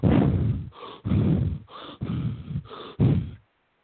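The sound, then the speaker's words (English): A voice imitates the rapid deep breaths of a breathing method, producing five forceful, breathy rushes of air in quick succession with short gaps between them, then falling silent. “he'll do these rapid deep breaths that sound a little like,”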